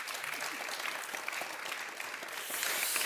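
An audience applauds the Labour Party mayoral candidate at a local election debate in Vestvågøy. The clapping is steady and dense but fairly faint, and swells slightly in the last half second.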